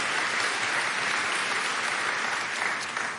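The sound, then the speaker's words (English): Applause from a church audience in Norman welcoming online campuses during a service: dense, steady clapping that fills the whole stretch at an even loudness and eases off slightly at the very end. “I'd like for everybody here in Norman just to welcome everybody in DeLand and Palm Bay online. Give them a big hand.”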